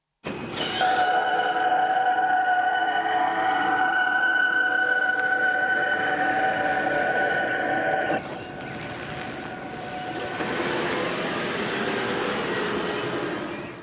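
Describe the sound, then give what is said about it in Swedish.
Warning sound of a Toyota hybrid car reversing and then driving off: a steady, loud electronic hum of layered tones, which abruptly gives way to a softer, broader whirring for the remainder. “Toyotas hybridbilar kan låta så här när de backar och sen kör iväg.”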